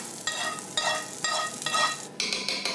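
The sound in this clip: Roasted onions with parsley are stirred into meat sizzling in a pan, giving a continuous frying hiss broken by repeated bursts of stirring scrapes.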